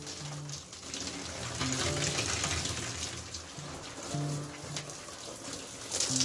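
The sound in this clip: Water running steadily from a tap while soapy suds are rinsed away: a soft, continuous splashing hiss that swells and eases over several seconds.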